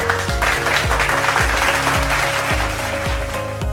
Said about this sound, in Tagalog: Binabati ko kayo sa pagsagot sa mga tanong. Palakpakan ang inyong mga sarili.